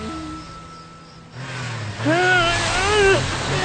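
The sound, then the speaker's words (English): An animated car's engine revs as its tires spin, stuck in sand at night. A quiet stretch gives way to loud, wavering whines of revving. “What should I do? I can't budge. My tires are digging deeper.”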